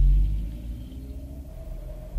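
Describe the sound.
Low, steady rumble of a car driving on a windy night, a droning hum that swells and dips slightly throughout, with no voices.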